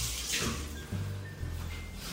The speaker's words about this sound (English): I'm gonna wash my hands.